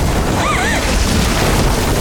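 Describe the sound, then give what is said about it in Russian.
A bomb falls beside a house in a wartime film scene, heard as a dense, sustained low roar and rumble that holds steady throughout without a distinct single blast. “Рядом с домом падает бомба.”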